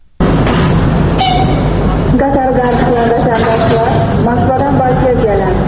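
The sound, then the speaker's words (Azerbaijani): Ambience at Baku railway station, among travellers heading to and arriving from Russia. The din is loud and continuous, made of many voices and steady background noise throughout. “Bakı dəmir yol vağzalında Rusiya gedənlər və gələnlər nə qədər çox olsa da, gələnləri qarşılayan, gedənləri yola salan azdır.”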